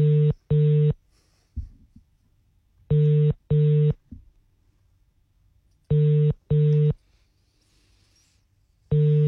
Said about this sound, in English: I'm going to call this person.